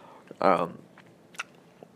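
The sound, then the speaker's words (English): Chewing of nicotine gum, with one louder chomping burst near the start followed by a few faint, brief mouth clicks, heard alone without talk. “Sorry to be chomping, but I'm a nicotine fiend and I need my gum.”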